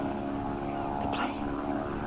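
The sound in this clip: A propeller airplane flies overhead, its engine a loud, continuous droning hum that holds steady throughout with no voices.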